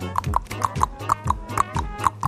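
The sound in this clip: Horse hooves clip-clop in a steady, even rhythm, with many regular hoofbeats and a bright, ringing knock on each strike.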